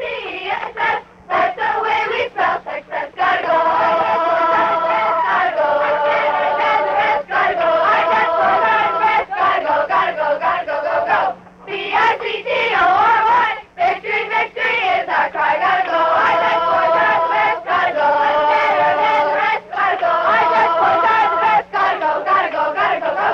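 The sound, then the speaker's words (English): Cadets of a youth drum and bugle corps chant together to psych themselves up. Their loud, rhythmic shouted phrases repeat steadily throughout, broken only by very brief pauses. “And what you just heard is the sound of 100 ambassadors, well, a few of them, getting themselves ready for another ambassadorial gesture of goodwill on behalf of Kitchener, Waterloo, and Canada. Those were some of the Dutch Boy Cadets Drum and Bugle Corps”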